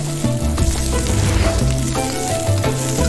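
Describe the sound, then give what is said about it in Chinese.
Meat stir-fried over high heat in hot oil gives a loud, steady sizzle throughout, with a dense crackling texture and no speech. “入热油，急火翻炒间锁住每一分肉汁。”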